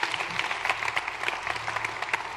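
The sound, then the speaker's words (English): A church audience claps in praise during a worship service, many hands in a brisk, uneven patter that stays at a moderate level and keeps going without a pause. “Come on, let's give God a clap offering of praise for it.”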